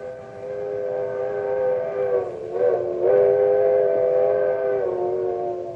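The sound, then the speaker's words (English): An old-fashioned coal-burning steam locomotive whistle sounds one long, steady, chord-like blast, holding for several seconds with slight wavers in the middle, with no voices. “It's a locomotive whistle. The old-fashioned kind that was part of a coal-burning steam engine.”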